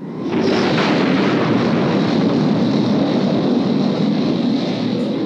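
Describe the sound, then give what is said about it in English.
Low, grinding roar of the Rebel Blockade Runner flyby effect from Star Wars, made from a slowed-down World War II AT-6 propeller racing airplane. It is dense and rumbling and holds at a steady loudness throughout. “And it is a slowed down World War II AT-6 propeller driven racing airplane. They slowed that down so that instead of being like a high pitched whirring, it was a slow, low, grinding,”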